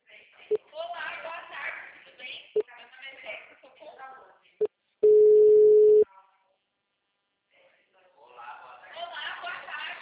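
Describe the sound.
A telephone tone after a dropped call: one loud, steady, mid-pitched beep lasting about a second. People talk over the phone line before it, with a few faint clicks, and talk resumes after a short silence.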